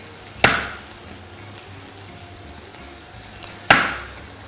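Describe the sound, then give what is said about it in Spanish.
Knife cutting raw potatoes into slices 4 to 5 millimetres thick for a Spanish dish. Two crisp, sharp chops on a board about three seconds apart, with quiet between them and no talk. “Y las patatas las vamos a cortar, bueno, pues con un cierto grosor. Mirad.”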